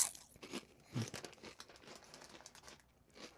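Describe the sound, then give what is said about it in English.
Crunchy chewing of salty potato chips: quiet, close crackles and crinkly snaps, with a few sharper crunches standing out among softer, irregular chewing. “But these are good salty potato chips.”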